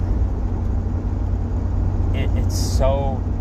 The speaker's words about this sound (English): like right now I'm driving around, and if I wasn't doing the podcast, like, it would just be me and my thoughts in the road